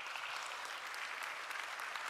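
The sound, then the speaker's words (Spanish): Applause from a church audience: dense, steady clapping that fills the whole short stretch without a break. “¿Por qué no le das un aplauso a Cristo, hermano?”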